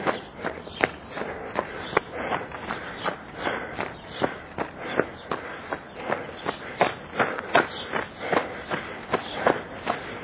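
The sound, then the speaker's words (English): Running footsteps on a roughly 2.9-mile route around the outside of Jerusalem's city walls: many evenly spaced footfalls in a brisk, steady rhythm, with no talk. “But of course, we're not running on the walls, are we? No. We're running a little further around the walls.”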